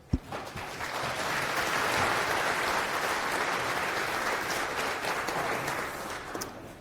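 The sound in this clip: Conference audience applause welcomes a speaker on async Rust in Godot 4: a sharp knock at the start, then clapping swells into a dense, sustained patter that holds steady before tapering off at the close.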